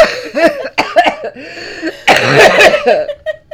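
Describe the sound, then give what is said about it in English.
One person breaks into a fit of harsh coughing, several short bursts followed by a longer, rougher spell, with quiet gaps between them. “I'm so sorry for the terrible coughing.”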